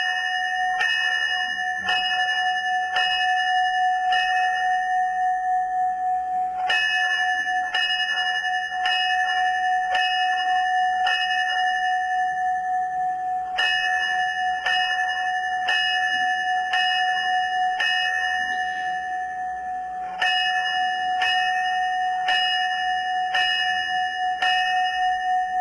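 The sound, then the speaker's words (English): A fire department bell in Shenandoah sounds the four fives at a memorial ceremony. It rings four groups of five clear, evenly spaced strikes, each ringing tone lingering, with short pauses between the groups. “That is the sound of the Shenandoah Fire Department sounding of the four fives, honoring firefighters and other first responders who lost their lives responding to emergencies that fateful day.”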